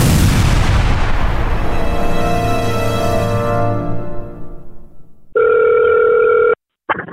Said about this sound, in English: Fire torpedoes. Firing torpedoes.